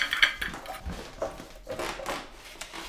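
Plates and cutlery clinking as a home-cooked meal is served at a dinner table: a few faint, light clatters and scrapes spread irregularly.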